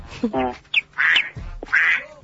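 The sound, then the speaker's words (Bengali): Duck quacking: a few harsh, nasal quacks in short separate bursts, fairly loud and uneven in rhythm. “এটা হাঁস, হাঁস”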